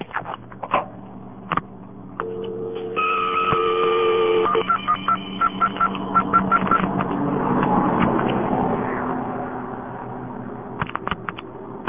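A telephone number is dialed, with a few sharp clicks followed by a long run of pitched dialing tones and rapid clicking, then more scattered clicks at the end.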